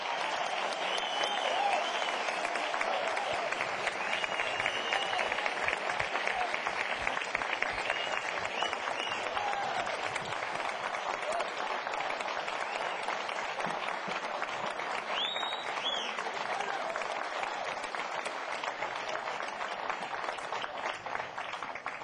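Audience applause at a live music show as band members are introduced: a long, steady wash of loud clapping from a crowd, sustained evenly from start to finish.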